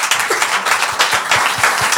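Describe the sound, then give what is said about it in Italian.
Audience applause, steady dense clapping at moderate loudness throughout, with no talk over it. “un applauso di nuovo.”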